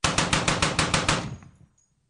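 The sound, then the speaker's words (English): A Gatling gun fires rapidly: a loud, fast, even string of many shots lasting just over a second, then an echoing tail that fades into quiet. “Sounds like a Gatling gun in the background. That's pretty good.”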